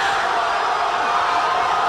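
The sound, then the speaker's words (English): Crowd cheering from soccer fans in Argentina celebrating their team's World Cup final win over France on penalties, a dense, loud, continuous roar of many voices that holds steady throughout. “That is the sound of pure elation from soccer fans in Argentina after their team beat France in the World Cup.”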